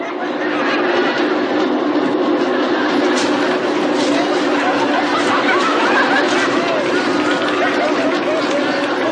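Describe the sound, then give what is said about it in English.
A passing train rumbles in a dense, steady roar that fills the whole stretch with broad, unbroken noise and no clear pauses. “Is it thunder? That rumbling? Yeah. That's just a train.”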